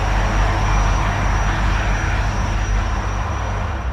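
Helicopter noise as handcuffed men are pushed aboard and flown away from a camp, a loud, steady rotor-and-engine roar with low throbbing hum that holds level throughout, no voices heard.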